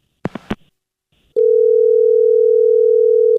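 A telephone handset is hung up with three sharp clicks, followed after a short pause by a steady, unbroken dial tone of even pitch that holds for about two seconds.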